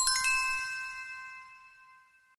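An electronic chime announcing an incoming email: a single bright ding of several clear ringing tones that fades slowly over about two seconds, quiet and alone.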